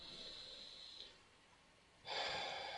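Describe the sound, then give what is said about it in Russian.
A person breathes in audibly with a soft, airy rush, then a louder and harsher breath at the end, with no speech. “Я делаю вдох,”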